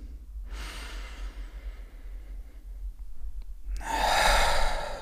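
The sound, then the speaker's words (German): Deep, slow human breaths, each an airy rush of inhaling and exhaling, separated by quiet pauses, with the last breath the loudest and fullest. “Und du nimmst gemeinsam mit mir erstmal drei tiefe Atemzüge.”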